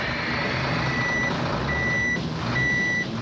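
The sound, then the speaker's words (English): A big rig truck pulling up, its engine giving a steady low rumble while a high-pitched reversing beep sounds in three separate runs over it. “Sure do, boy. Pull that rig on up.”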